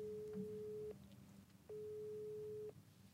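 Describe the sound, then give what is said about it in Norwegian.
Telephone ringing tone heard while placing a call: a steady mid-pitched electronic tone sounding in two roughly one-second pulses with a short gap between them, faint over low hiss. “Vi prøver å ringe Daniel.”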